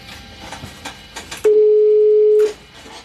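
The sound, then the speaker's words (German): A telephone tone on the driver's phone of a long-distance train, used to call the signal box: a few faint short bursts, then a steady, single-pitch tone held for about a second before cutting off. “Und dass wir hier rauskommen aus dem Betriebshof, muss ich das Stellwerk da anrufen. Mhm. Da sitzt auch noch jemand. Da sitzt noch jemand, genau. Gebe ich dann seine Nummer hier ein.”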